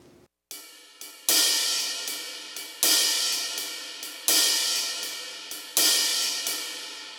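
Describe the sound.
Drum stick strokes on a ride cymbal: soft tip taps alternate with louder shoulder slaps on the cymbal's bowed part, an accent landing about every third stroke in a steady shuffle, each hit leaving a bright, washy decay.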